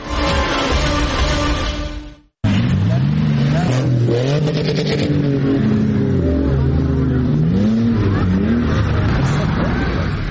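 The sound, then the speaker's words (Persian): Several SUVs speeding over sand dunes in Kandahar, Afghanistan: after a sudden cut, engines rev loudly and continuously, their pitch rising and falling in repeated surges. “موترهای شاسی بلند به سرعت تپه‌های ریگی کندهار را می‌پیمایند.”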